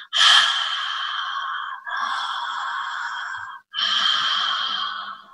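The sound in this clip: Yoga ocean breathing, slow breaths drawn through the back of the throat with the mouth closed, comes as three long, airy, hissing breaths of about two seconds each, separated by brief pauses.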